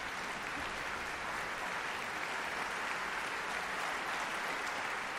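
Audience applause for the concertmaster before an orchestra concert, as the orchestra tunes ahead of the conductor's entrance: dense, even clapping that holds at a steady level throughout.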